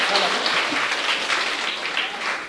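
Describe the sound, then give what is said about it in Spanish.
Audience applause at a community gathering: dense, steady clapping that holds at an even, fairly loud level from start to finish. “Demos fuertes aplausos a ellos también, que vinieron de lejos.”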